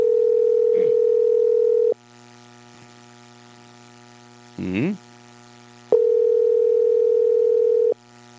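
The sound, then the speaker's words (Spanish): Telephone ringback tone heard while calling someone: two long, steady buzzing tones of about two seconds each, separated by a silent gap of several seconds, with a brief voice sound in the pause. “Ahí le estamos llamando, ¿eh? No quiere.”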